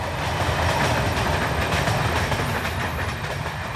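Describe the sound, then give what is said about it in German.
A train rattles past behind a forest in Hungary, heading north toward Gödöllő, a steady, loud rumbling clatter of wheels on rails that continues throughout and eases slightly near the end. “Hinter dem Wald rattert ein Zug in Richtung Norden vorbei.”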